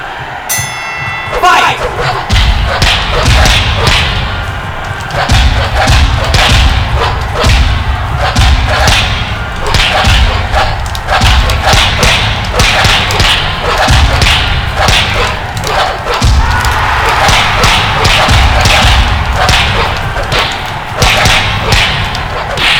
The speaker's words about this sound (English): I'm going to fight using boxing, moving my hands back and forth.